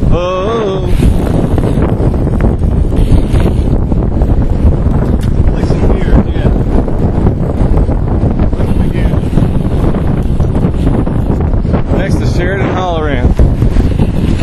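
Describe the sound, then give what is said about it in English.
Riders travelling along a road in Indiana, heard as loud, steady wind rushing and buffeting the microphone throughout, with brief voices near the start and the end. “Here's the sounds of the riders riding on the road.”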